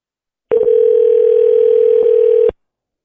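A telephone dial tone sounds while a call is being placed, a single steady, loud electronic hum lasting about two seconds that starts and stops abruptly, heard alone with no talking.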